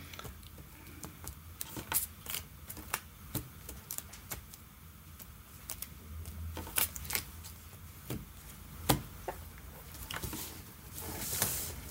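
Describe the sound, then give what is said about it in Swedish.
A deck of playing cards being shuffled, heard as many quick, crisp riffling snaps and soft patters in irregular bursts, fairly faint and continuing throughout. “Nu kanske vi ska ta korten och gömma den där lite. Ja. Vi tar fram alla. Blanda. Så blanda så mycket du vill.”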